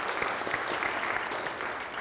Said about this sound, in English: Big thank you to everyone who decorated the church. Well done. Can we get a round of applause for that?